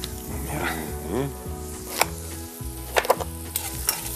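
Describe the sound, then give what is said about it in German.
Food sizzling in a pan with half oil, half butter, a soft continuous hiss broken by a few sharp clicks. “ist immer gut, wenn man so ein bisschen halb Öl, halb Butter macht”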